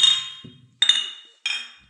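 Glasses clink together in a toast: three bright, ringing chinks spaced about half a second apart, each fading quickly.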